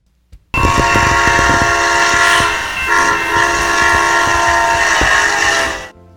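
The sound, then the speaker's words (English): An Amtrak Southwest Chief locomotive's five-chime horn blares a loud, sustained chord of D-sharp, F-sharp, G-sharp, B and D-sharp for about five seconds after a brief short toot, with train rumble beneath. “the horn on the Southwest Chief trains is a 5-chime with notes D-sharp, F-sharp, G-sharp, B, and D-sharp. The result? It resonates something like this.”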